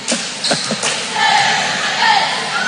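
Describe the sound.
A basketball thuds off the back of the rim on a missed shot during a game, a few dull bouncing thumps early on, then steady background noise with voices.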